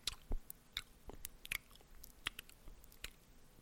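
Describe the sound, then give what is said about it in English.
Close, quiet ASMR eating sounds of a person chewing food, with many irregular crisp bites, soft crunches and wet mouth clicks over a faint hiss. “Today we're going to listen to somebody eating food.”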